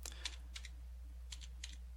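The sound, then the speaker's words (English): Keystrokes on a computer keyboard come as faint clicks in a few short clusters separated by pauses, over a steady low hum. “Let me just type this in correctly this time.”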